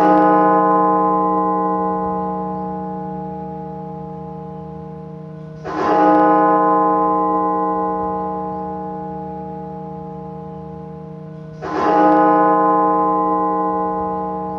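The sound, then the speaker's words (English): A cathedral bell at the National Cathedral in Washington tolls for pandemic victims: three loud, evenly spaced strokes, each followed by a long, humming ring that slowly fades before the next strike. “a bell at the National Cathedral tolls 400 times, one for every 1,000 victims of the pandemic.”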